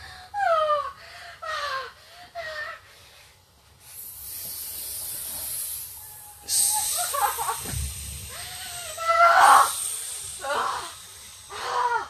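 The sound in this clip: Snake hissing: a steady, harsh high hiss rises in partway through and runs to the end. It sits alongside tonal, voice-like gliding sounds that come and go.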